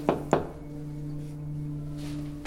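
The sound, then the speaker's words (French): Two sharp knocks on a door follow each other in quick succession, then give way to a steady low hum. “Après une pause devant la porte, Lila frappa.”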